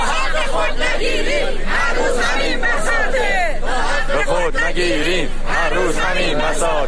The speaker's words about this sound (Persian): بازنشستگان تامین اجتماعی در یزد هم شعار دادند. شعارهای دیگری هم در اصفهان داده شد.